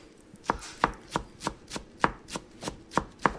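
A chef's knife chops herbs for a chicken marinade in the kitchen of Jacaranda, a Beirut restaurant: ten crisp, even knocks of blade on board in a steady rhythm, with no talking.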